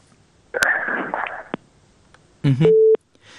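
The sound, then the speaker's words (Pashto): A phone line gives a busy tone after a call to a live program is cut off: a burst of noisy line sound, then a single steady, mid-pitched beep lasting about half a second. “د وردګ صاحب اړیکه شلیدلې ده.”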